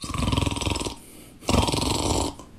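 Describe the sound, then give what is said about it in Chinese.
A human voice imitates the thunderous snoring of a sleeping man with two long, loud, rasping snores separated by a short quiet pause, each rough and throaty with a pulsing texture. “鼾声如雷，睡着了。”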